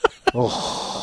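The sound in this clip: Wheezing breaths made deliberately by a person: two short, sharp intakes followed by a long, rasping, hissing exhale with a faint voiced tone at its start.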